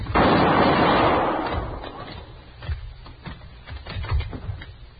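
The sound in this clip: A gunshot rings out in a radio drama, one sharp, loud blast with a rumbling tail that dies away, followed by a few fainter knocks and clicks.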